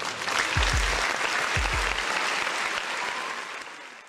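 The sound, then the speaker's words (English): Audience applause greets a host: dense, steady clapping that holds strong and then tapers off toward the end. “Now give it up for your host, The Educated Natural.”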